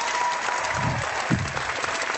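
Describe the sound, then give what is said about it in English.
An audience applauds at the opening of a live comic book show taping. The clapping is dense and steady, with a brief swell just past the middle. “Thank you for that big round of applause.”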